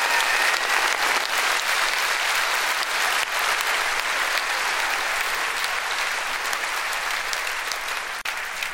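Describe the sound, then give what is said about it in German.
Sustained audience applause for a comedian on stage, a dense, even roar of many hands clapping that holds steady throughout, with one brief dip near the end. “Mir klatscht ihr zu, weil ich auf einer Bühne stehe.”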